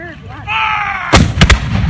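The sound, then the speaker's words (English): A shouted voice is followed by a cannon firing in an artillery demonstration: one loud, sharp blast followed by quick, booming cracks that fade out. “Before the battle, though, they had this artillery demonstration, so they brought the cannons out. Check this out. It's pretty cool.”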